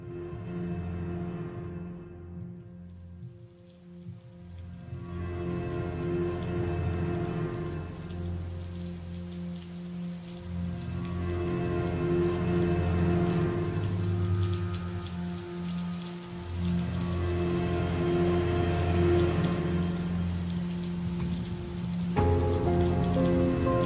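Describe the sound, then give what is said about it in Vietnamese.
Heavy rain pouring onto an asphalt road, a dense, continuous hissing roar that holds steady and loud for the whole stretch with no voices. “cơn mưa trắng xóa bất ngờ trút xuống mặt đường nhựa.”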